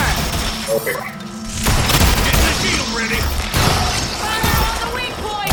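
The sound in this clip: Gunfire from a tramp gun in a video game: loud, dense bursts of shots and crashing impacts that run almost without a break, with sharper surges of noise near two and three and a half seconds.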